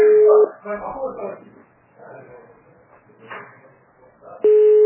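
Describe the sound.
Ringing tone of an unanswered outgoing phone call, a steady mid-pitched tone heard briefly at the start and again at the end, with people talking in between.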